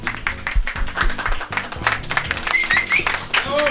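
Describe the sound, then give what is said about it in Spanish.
Applause, a busy patter of many hands clapping at moderate level that carries on steadily throughout. “Un aplauso, por favor.”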